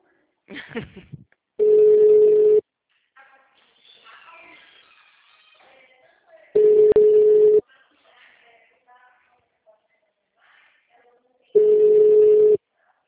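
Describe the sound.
An unanswered telephone call rings out as three identical steady tones, each about a second long and spaced roughly five seconds apart, with faint quiet sounds in the gaps.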